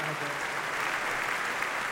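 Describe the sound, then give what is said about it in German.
Audience applause at a music festival opening in a concert hall: dense, steady clapping that fills the whole clip, with voices faintly mixed in. “vielen Dank für den Applaus.”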